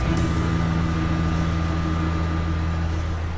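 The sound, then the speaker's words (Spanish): A metro carriage gives off a steady low rumble and a hum with several steady low tones. The level stays even throughout, with a short bright burst right at the start. “me voy a mi casa en el vagón del metro. Se inicia el cierre de puertas. Las puertas se cierran”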